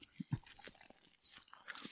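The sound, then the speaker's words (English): Chewing on a rubbery condom in the mouth: a few faint, wet crunching and biting sounds in quick, uneven succession. “I'm definitely chewing a condom. It's leaving chunks in places.”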